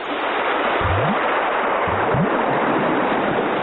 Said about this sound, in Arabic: صاحبنا عصام ماشي على البحر فرحان، بيبني بيوت على الرملة ويدلدل رجله في المية كمان.